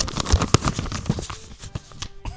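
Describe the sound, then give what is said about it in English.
Paper tearing and rustling as an award envelope is opened: a run of crisp crackles and sharp rips, louder at first, then thinning out into softer scattered crinkles. “Let me open up the envelope and see.”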